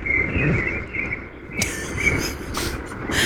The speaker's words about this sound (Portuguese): Que são sabiás, laranjeira, né? Acordando e despertando a cidade de São Paulo, é bastante comum isso.